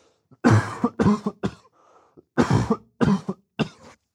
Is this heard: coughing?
yes